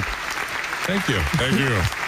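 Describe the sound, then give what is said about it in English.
An audience claps at a trophy presentation, a steady, moderately loud patter throughout, with a voice talking over the applause in the second half. “I'll hit you back with clapping.”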